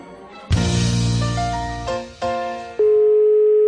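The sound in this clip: Electronic telephone call signal tones, loud with no talk, starting abruptly as a bright buzzing tone that steps through a few pitch changes before settling into one steady tone at the end.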